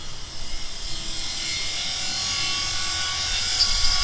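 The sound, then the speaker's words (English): Continuous hissing roar of a welding torch cutting through a padlock and heavy chain, steady and even in level, with a bright, airy high edge and no pauses. “The door to the silo is locked with a padlock and heavy chain. Fortunately, I don't go anywhere without my special reporter's welding torch.”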